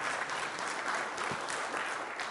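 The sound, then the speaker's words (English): Audience applause during a software presentation, a steady wash of many hands clapping that carries on evenly for the whole stretch, fairly faint and with no voices. “But today, this is where you can clap, by the way. So thank you.”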